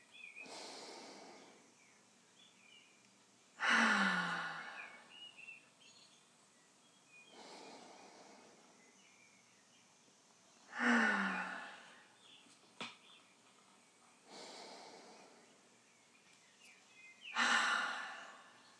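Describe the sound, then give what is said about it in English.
Three slow, relaxing breaths, each a soft airy inhale followed by a louder, longer sighing exhale, spaced evenly over a quiet background with no talking. “To start off, let's take 3 relaxing breaths.”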